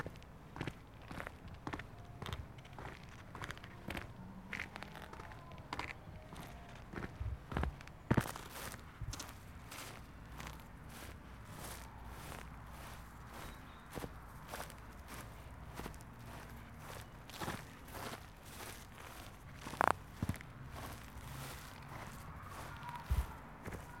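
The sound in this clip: Footsteps of people walking around outdoors: many soft, steady steps at an even pace, faint throughout, with an occasional sharper scuff and no talking.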